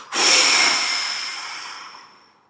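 A powerful exhale through an open mouth during a guided breathing practice. It is a single strong, breathy rush of air with a sharp start that fades gradually over about two seconds into silence.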